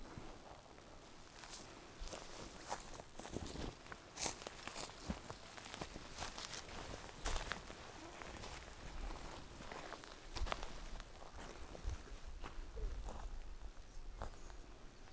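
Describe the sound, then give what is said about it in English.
Footsteps walking across a beaver dam in an untouched wetland: many irregular, faint crunching steps in a loose rhythm, each a short dry crackle, with no talk over them. “This is the beaver pond. And they made this dam here that we're about to walk on.”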